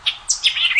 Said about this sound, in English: That's the song of the white-eyed vireo.